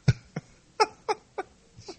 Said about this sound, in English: yells at me every time I cough